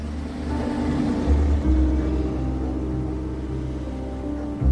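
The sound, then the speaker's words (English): Low engine rumble of a black SUV driving off, a steady droning hum with slightly wavering low tones throughout and no voices. “Jesse climbs out of Healy's black SUV. He surveys the building warily. Healy drives off.”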